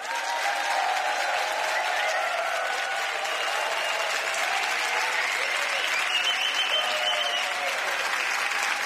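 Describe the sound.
A large audience applauding: dense, continuous clapping that holds at an even, steady level throughout.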